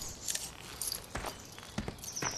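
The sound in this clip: A man's footsteps as he walks away outdoors: several soft, evenly spaced steps, faint and unhurried, with no voices.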